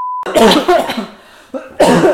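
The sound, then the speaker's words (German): A short beep tone precedes coughing: a rough burst of two or three coughs, a brief pause with a breathy rasp, then another loud cough. “Sehr authentisches Husten von beiden Protagonisten.”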